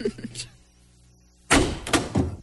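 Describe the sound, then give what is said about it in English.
Knocking on a door: three heavy, loud thuds come in quick succession after a quiet stretch, with a brief voice heard early on. “Hey, who's that a-knocking on my door here at Pubic Place?”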